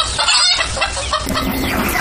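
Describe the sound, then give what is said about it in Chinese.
A hen clucks and squawks in rapid, agitated bursts as it flees before being slaughtered for cooking, over continuous noisy rustling. “母鸡四处逃窜，终难躲菜刀。”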